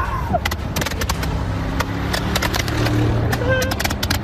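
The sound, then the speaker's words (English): Fireworks launched off a moving truck along a road, with many sharp pops and crackling bangs going off in rapid, irregular bursts over a steady vehicle rumble. “Investigators say it was fireworks launched off of a moving truck. That's what you're seeing there.”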